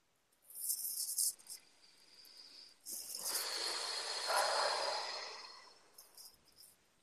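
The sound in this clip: Exhaled breaths during a guided meditation: a brief airy breath, then one long, slow, soft exhale that swells and fades, with a faint trailing puff at the end.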